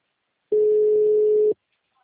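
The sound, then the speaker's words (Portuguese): Ringing tone on an outgoing telephone call: a single steady, mid-pitched electronic beep lasting about one second, clean and loud, with silence before and after. “Agora tá chamando.”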